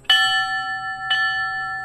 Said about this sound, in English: 20 bell strikes at a ceremony in downtown Sparta helping remember firefighters who lost their lives during a terror attack 18 years ago today.